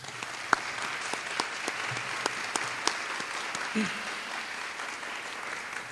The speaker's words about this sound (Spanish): agradecemos al doctor Sorondo con un fuerte aplauso